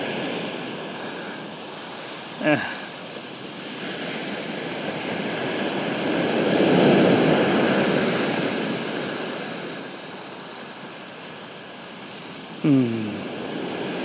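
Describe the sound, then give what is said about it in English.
Ocean surf washes in as the tide comes in: a steady, broad hiss of breaking water that swells to a fuller roar midway, then eases again. Two brief, sharp sounds cut through near the start and end. “I think the tide's coming in. Pretty sure the tide is coming in.”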